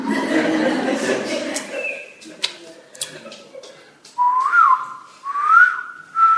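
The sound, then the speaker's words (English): A person whistles an imitation of a koel's call, producing two clear, rising whistled notes near the end. Talk comes before the whistles. “And what is the kokil? The bird that sounds something like this.”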